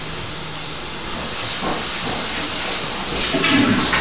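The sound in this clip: A toilet flush, pushed by a child learning the routine, gives a steady rushing, hissing water sound that swells slightly louder toward the end.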